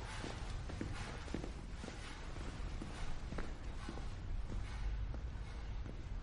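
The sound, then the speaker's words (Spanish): Footsteps walk down a dark corridor in a steady, even rhythm, many soft treads spaced about half a second apart over a constant low rumble. “Mira atrás y cruza un oscuro pasillo.”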